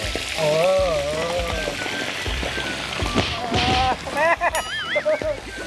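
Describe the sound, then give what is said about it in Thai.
Fish sizzles as it fries over high heat in a hot pan sprinkled with salt, a steady crackling hiss under people talking. “โรยเกลือลงไป เวลาทอดปลาจะได้ไม่ติดก้นกระทะ ครับนี่ แล้วก็ใส่ปลาลงไปเลย”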